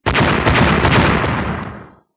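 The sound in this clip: An explosion sound effect marks soldiers being blasted to fragments: a loud, dense rumbling burst that holds for about two seconds, then fades away.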